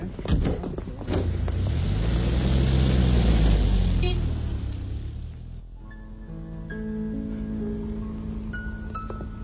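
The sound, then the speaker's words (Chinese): A car engine rumbles and swells as the car pulls away after a goodbye. The broad, loud roar holds steady for several seconds, then drops off abruptly into a quieter, steady hum. “汽车慢一点。注意安全。”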